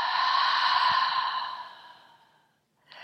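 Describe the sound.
A long, deep exhale during a guided breathing exercise, a soft airy breath that gradually fades out over about two seconds, followed by the start of another breath.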